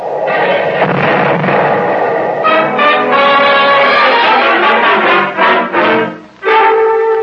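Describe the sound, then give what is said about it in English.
Artillery fire laying down a creeping barrage: loud, continuous rumbling and booming that blends into a dense, sustained roar with brief dips near the end, with no voices. “Laying down a creeping barrage. Yeah. It's heading into our backyard.”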